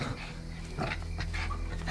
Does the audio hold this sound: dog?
yes